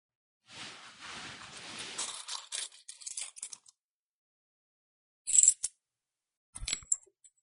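Coins drop as payment is handed over: rustling, then a few bright metallic clinks in two short bursts, fairly faint.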